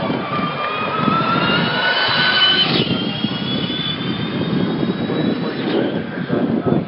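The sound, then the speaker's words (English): A Formula E electric race car drives past during testing at Donington Park in England, its high, thin electric whine gliding in pitch over a steady rushing roar, loud throughout. “from Donington Park in England, where they're testing the Formula E for 4 days. Sound quite good. Here's one coming by the now.”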